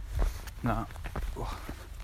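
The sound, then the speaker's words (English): Footsteps of someone walking outdoors at a campsite, heading toward a small stream to fetch water. Several soft, uneven steps thud and crunch at a steady walking pace. “Now I'm walking currently, but that's because I'm trying to get to this little stream just down here to collect some water for some dinner.”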